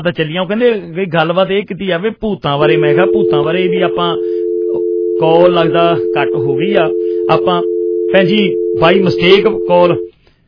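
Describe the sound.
A steady telephone tone sounds after a call to a radio studio drops. It is a continuous two-pitch hum that runs for about seven seconds beneath a man who keeps talking over it.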